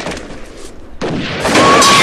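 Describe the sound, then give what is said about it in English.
Gunfire in a shootout inside a hair salon: a dense, loud crackling roar of shots that surges sharply after the first second and stays heavy and continuous to the end. “Customers cower in their seats as the bullets rain down around them.”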